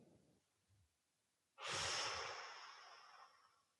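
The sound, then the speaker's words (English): A deep breath drawn in during a guided relaxation exercise: a soft, airy rush begins abruptly after a near-silent stretch, holds steady for about two seconds, then slowly fades without ending completely. “Take a breath. Pull it in. It's nice, easy.”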